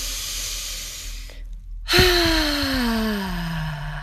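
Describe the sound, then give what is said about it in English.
Deep breath in through the nose and out through the mouth with a voiced sound, in a guided breathing exercise: a long airy inhale, a brief hush, then a loud sighing exhale whose tone slowly falls in pitch. “I'd like you to move it in through your nose, out through your mouth. Please, on the out breath, make a sound, okay?”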